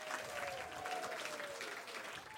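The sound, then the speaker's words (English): Audience applause at a live science event on stage: steady, dense clapping from a crowd that holds at an even, fairly faint level from start to finish. “Everyone, please, one more round of applause.”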